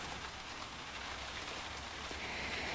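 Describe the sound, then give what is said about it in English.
Steady rain falls with an even, dense hiss of drops on a surface. It holds at a constant level throughout, with no voices. “Because I'm afraid of the rain.”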